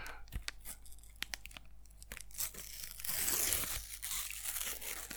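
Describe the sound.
Football sticker packets are torn open: crisp paper ripping and crinkling, fairly quiet, with a few sharp tears and then a longer, louder rip near the end.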